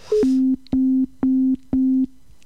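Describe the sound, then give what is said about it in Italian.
Four identical beeps of a telephone busy signal on an attempted video call to a mobile phone: steady mid-pitched tones, evenly spaced, each about half a second with short gaps, after a brief higher tone at the start. “Ecco, vediamo se lui risponde. No. Da occupato, ma forse qualcuno lo sta chiamando. Da occupato.”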